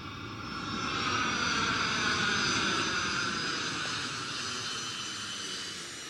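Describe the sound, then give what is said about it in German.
A KLM Cargo airplane landing early on a December morning at Zurich-Kloten airport: a loud, sustained jet-engine roar that swells over the first second, then holds and eases slightly, with a high whine drifting gradually lower. “Landung von KLM Cargo, Flug Nummer 744, frühmorgens am 8. Dezember 2013 in Zürich-Kloten.”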